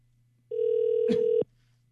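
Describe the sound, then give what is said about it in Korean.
Ringback tone of an outgoing telephone call: a single steady mid-pitched tone lasting about a second, starting and stopping abruptly, heard alone with no voices. “신호 가고 있습니다.”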